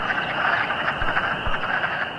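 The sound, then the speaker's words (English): A dense chorus of wood frogs at a breeding pond at night, thousands of males giving duck-like quacking croaks that blur into one continuous, steady clucking din with no pauses. “That cacophony of quacks, recorded here by Wheelwright in 2012, goes on for several nights as the wood frogs embark on an explosive three-day breeding frenzy in the water.”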